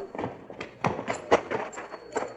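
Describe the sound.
Horse hooves clip-clopping in a quick, uneven run of hollow knocks, moderately loud and fairly dry.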